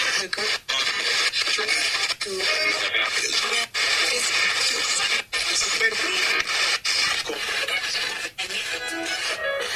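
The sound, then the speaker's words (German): Output from the Frank's Box spirit box app, a phone app version of the radio-scanning device, gives a continuous loud wash of scratchy radio static and music fragments, chopped by several brief, irregular cut-outs as it sweeps. “Und ja, Frank's Box könnte ich mir nie leisten, sie zu kaufen, aber es gibt sie als App. Gibt es ja als App. Und als App klingt sie so.”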